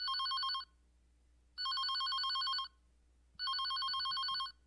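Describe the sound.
A telephone rings in three bright, trilling electronic bursts of about a second each, separated by even pauses. The ringing is fairly faint over a low steady hum, with no talking.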